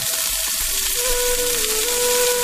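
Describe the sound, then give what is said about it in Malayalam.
Chopped onion sautés in hot oil in a pan just used to wilt papaya, giving a loud, steady sizzling hiss that continues unbroken throughout, with no talking. “അതേ ചട്ടിയിലേക്ക്, അതേ എണ്ണയിലേക്ക് ഈ ഒരു സവാള ഇട്ടിട്ട് നന്നായിട്ടൊന്ന് വഴറ്റിയെടുക്കാം.”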